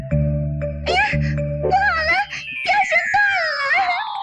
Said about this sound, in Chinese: 吊桶掉进了井里，小兔急得大哭起来。